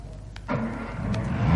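A car engine is started, its low rumble kicking in suddenly and building steadily louder over about a second.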